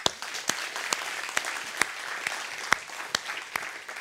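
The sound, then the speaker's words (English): A church audience applauds with steady, dense clapping and sharper individual claps standing out at intervals throughout. No voices rise above it. “Can we just give the Lord a hand?”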